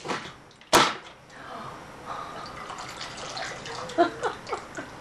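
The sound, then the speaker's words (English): A steaming can, heated with a little water inside, suddenly collapses under air pressure with one sharp, loud crunch, followed by softer watery gurgles and small crackles. “All the air was pulled out, turned back into water inside this can, so it was a low pressure environment. All the atmosphere air is pushing down this can and it ends up crushing the can.”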